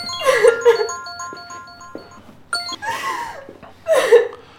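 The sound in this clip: Mobile phone ringtone for an incoming call, a melodic run of bright electronic tones at stepped pitches, with voices speaking and laughing loudly over it.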